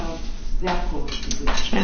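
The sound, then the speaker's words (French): Spoons and cutlery clink against dishes at a breakfast table, a few sharp bright clinks scattered across a low clattering background. “Prends cette cuillère, elle est propre. D'abord, tu as une cuillère là-bas. Ne? Tu as une cuillère, tu as deux cuillères. Ouais, j'ai pas mal de cuillères.”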